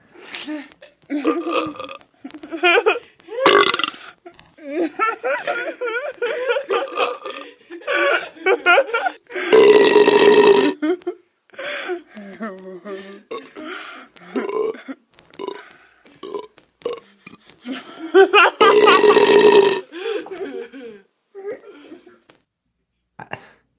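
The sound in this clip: A man lets out loud, drawn-out burps amid casual conversation. Two long, rasping belches stand out, each lasting about a second, between stretches of chatty talk.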